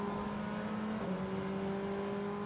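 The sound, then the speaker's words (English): A Ferrari race car, the Triassi Competizione entry, pulls out of the pit lane at Watkins Glen during a 2023 sports car race, its engine holding a steady, loud droning note with a brief dip in pitch partway through. “That was just coming out of the pit lane. The Triassi Competizione car with Onofrio Triassi behind the wheel”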